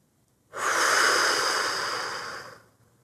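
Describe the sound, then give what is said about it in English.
Breathing during a guided exercise of inhaling through the nose and exhaling through the mouth: one long, steady, airy breath lasting about two seconds. It is fairly loud, heard alone, and tapers off gently at the end. “Begin with an inhale through your nose and exhale through your mouth.”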